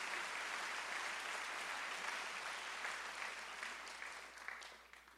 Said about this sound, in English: why don't you give a hand to the Lord right now?